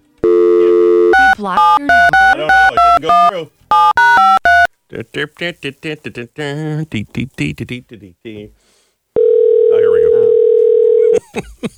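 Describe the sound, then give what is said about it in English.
Telephone ringback tone during a call to a man: a rapid series of touch-tone dialing beeps and a stretch of talk come first, then a steady, loud electronic tone that holds for about two seconds. “Stop calling him. Are you serious? You're calling him? Really?”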